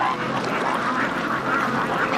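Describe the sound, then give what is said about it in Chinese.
Many ducks quack together on a duck farm, a dense and continuous chorus of overlapping calls that stays loud and steady throughout. “白干村这个鸭子养得太好了。”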